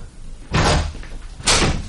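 A small window being opened, as a story sound effect: two loud, broad rushing scrapes, the second following about a second after the first, with no voices.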